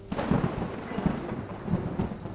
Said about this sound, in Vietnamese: Sấm chớp vang lên, rạch ngang cả bầu trời